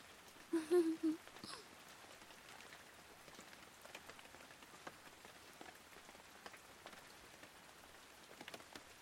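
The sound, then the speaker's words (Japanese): Rain falls in a steady, even hiss with many small drops pattering all the way through, and a short voice sound comes early on. “雨、止まないね。”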